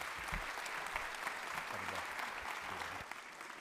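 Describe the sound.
Audience applause welcoming a guest speaker to the stage: dense, steady clapping from many hands that carries on without a break and eases slightly toward the end.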